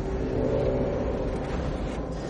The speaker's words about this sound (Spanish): El coche avanza por una carretera que cruza un árido campo.